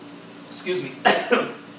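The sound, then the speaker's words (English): A person coughing from excitement and a dry throat: a few short, harsh bursts close together, the later ones louder, with no speech around them. “I need some water. I'm so excited. I'm coughing here.”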